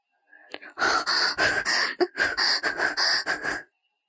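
A loud, strained exhale that runs into a rapid series of voiced, gasping pants, harsh and breathy, then stops abruptly.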